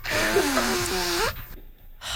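A person blows their nose in one long, loud, honking blast of about a second with a wavering buzzy pitch, followed by quieter breathing.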